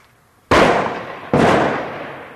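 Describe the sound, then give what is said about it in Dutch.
Two loud explosion blasts likened to an atomic bomb, each a sudden sharp crack trailing into a long rumbling decay, the second striking under a second after the first. “Knalslag, atoombom.”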